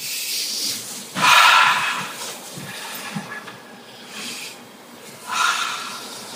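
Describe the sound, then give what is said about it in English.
People in a room take deep breaths in and out together, giving a few loud, airy rushes of breath with quieter, softer breathing in between. No one speaks. “So I'm going to ask you all to take some deep breaths in and out.”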